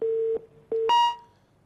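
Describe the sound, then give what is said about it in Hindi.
A telephone line tone sounds as a caller's call drops: two steady, even beeps, then a brighter, higher tone that fades out. “Call drop हो गई।”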